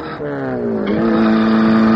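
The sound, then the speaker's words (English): A white car drives toward a chalet, its engine giving a steady, loud droning hum that dips slightly in pitch and then holds level as the car approaches. “Car coming out, sir. It's a white crestwing. Oh, blast. He's coming this way towards the chalet.”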